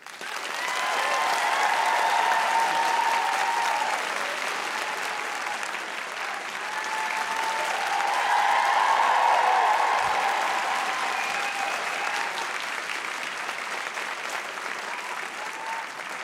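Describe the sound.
A Palladium audience gives sustained applause to welcome novelist Ruth Jones, author of Never Greener. The loud, dense clapping runs unbroken for about sixteen seconds, rising and easing in two broad waves, with a few voices mixed in.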